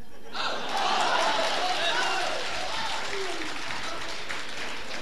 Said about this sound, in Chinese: 根据大家这掌声，我觉得可能画的还挺漂亮。